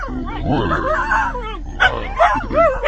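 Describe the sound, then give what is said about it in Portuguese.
A dog barking and yipping: whiny, whimpering sounds give way to a few short, sharp barks in the second half, over a low steady hum. “Cala a boca, cachorro!”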